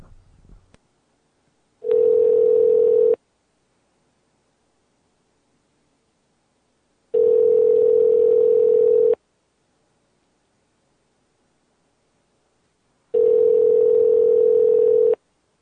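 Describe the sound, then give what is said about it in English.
Three evenly spaced telephone ring tones sound on a line after a number is dialed. Each is a steady mid-pitched hum about two seconds long, separated by roughly four seconds of near-silence, after a brief rustle at the start. “Okay. All right. Dialing. All right.”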